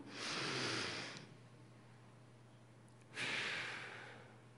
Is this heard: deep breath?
yes